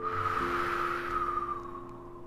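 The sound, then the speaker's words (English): A sustained breath through the nose during a children's mindful breathing exercise: one long, steady, airy rush with a faint hum beneath it, easing slightly toward the end, with no talking. “Breathe in through the nose, I can. And breathe out through the nose, I can't.”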